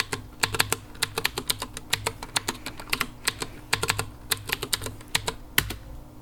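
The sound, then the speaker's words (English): Keystrokes on a computer keyboard as a password is typed during a Windows XP setup: many crisp clicks in irregular bursts, some quick runs and a few heavier strikes, over a faint low hum. “Really unsecure password. I don't know. I'll just type password.”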